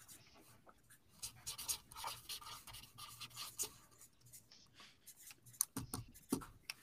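Pens or pencils scratch on paper as people write during a drawing and guessing game, a faint, steady run of many quick strokes with small taps.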